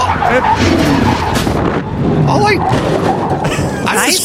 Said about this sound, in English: The car shouldn't have whipped around and flown off the track. Put the sound in there.